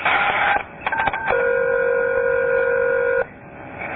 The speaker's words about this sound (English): Please enter the caller ID number.